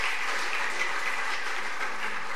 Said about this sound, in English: You should clap about that.